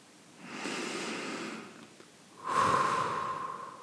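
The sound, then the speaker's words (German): A deep breath in and out: a slow, airy inhale followed after a short pause by a longer, fuller exhale, heard alone without talk. “Und dann atme zum Abschluss noch einmal tief ein und aus.”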